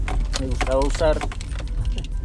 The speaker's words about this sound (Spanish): Si escuchan llaves es porque realmente estoy en el carro